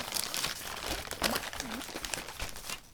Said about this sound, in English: Let's unwrap the present.